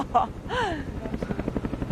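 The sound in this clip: Rescue helicopter flies away in wind, carrying a person on a long rope. Its rotor makes a steady, rhythmic chopping pulse. A brief voiced exclamation comes at the start.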